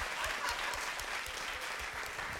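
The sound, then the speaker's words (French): An audience applauds in a brief, steady patter of many hands clapping, faint and even throughout with no voices standing out. “Non, on n'applaudit pas ça.”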